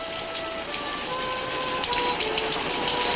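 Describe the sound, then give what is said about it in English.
Steady rain falls in a continuous, even hiss with faint scattered patter and no voices over it. “don't just stand there in the rain. You'll catch a death of cold.”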